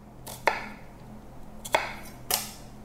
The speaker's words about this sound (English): Okay, so that is my onion. And so after I chop this all up, I'm just gonna put it all in with the kimchi.